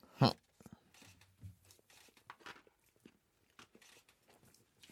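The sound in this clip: Someone bites into food with exposed tomato: one sharp bite is followed by a few fainter crunching and chewing sounds scattered across the quiet.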